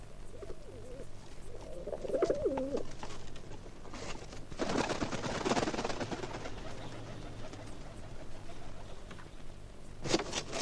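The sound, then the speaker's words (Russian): Pigeon cooing from a ringed pigeon with a metal band on its leg: two short, warbling coo phrases early on, followed by louder bursts of rough rustling noise, with no talking. “Смотрите, к нам прилетел голубь с металлическим кольцом на ноге.”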